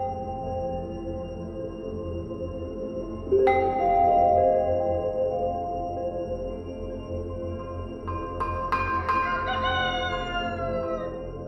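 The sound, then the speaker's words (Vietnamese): A rooster crows at dawn in a village, with two drawn-out crows standing out over a steady, low background drone. “Tiếng gà gáy sáng báo hiệu cho một ngày mới bắt đầu.”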